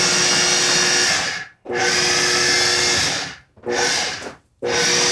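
A blender pulses food until it looks like chopped nuts, its motor whirring in loud, harsh bursts, four in a row with short gaps between, and no voices.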